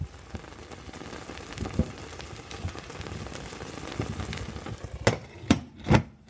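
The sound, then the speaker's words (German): A lid is set onto a pan of Iranian herb frittata (kuku sabzi) while it cooks: soft crackling and sizzling run steadily, then a few sharp clattering knocks of the lid sound near the end. “Damit das in Ruhe brodeln kann, kommt jetzt noch ein Deckel drauf.”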